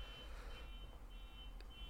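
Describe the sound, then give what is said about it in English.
A car alarm sounds faintly as a thin, high electronic tone that holds steady with brief gaps, set over a low continuous rumble, with no talking. “you guys fill during the car alarm. You can maybe cut it out.”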